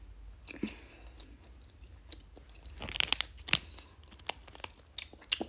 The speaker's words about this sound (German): Und jetzt noch das Rote. Man hört auch fast nicht, wenn ich das kaue.